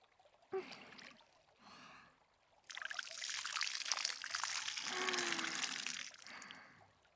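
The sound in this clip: Water is poured over a body to rinse away leftover soap suds. A soft, steady splashing pour runs for a few seconds after a brief sharp sound and a quieter rustle, and the whole clip is faint.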